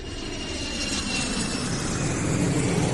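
An airplane at the airport sends out a steady, broad jet-engine roar that swells slightly louder throughout, with no voices.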